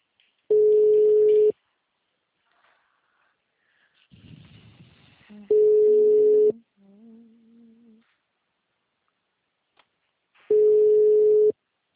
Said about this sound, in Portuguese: Agora tá chamando.